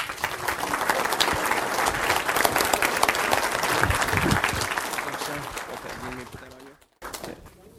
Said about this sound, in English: Let's have another hand for Sabatino.